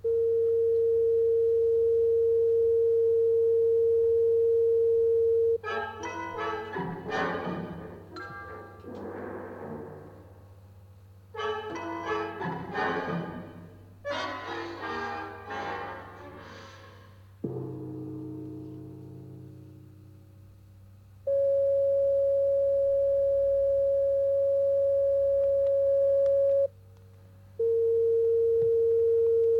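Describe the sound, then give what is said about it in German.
Steady pure sine test tones from a tone generator in a pitch-recognition exercise: one sustained tone alone, then a short music passage and a decaying gong, then two more steady tones separated by a brief gap. “Für die Erzeugung der Töne benutzten wir bis jetzt den Tongenerator.”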